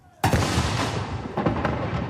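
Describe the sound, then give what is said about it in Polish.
A cannon salute fires at a military commemoration at Westerplatte. One sudden loud boom is followed by a long, rough rumbling decay. “Stańcie do apelu! Swobody! Salut armatni!”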